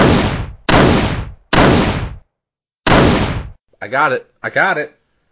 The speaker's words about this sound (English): I'm going to shoot it. Leave the spider alone. I'm going to shoot it.